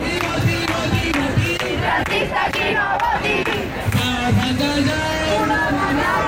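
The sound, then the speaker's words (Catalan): A crowd of about 2,000 housing protesters chants in central Barcelona. The loud, rhythmic massed voices hold steady throughout, with no single speaker standing out. “És el so de la mobilització en record de la Mari Carmen”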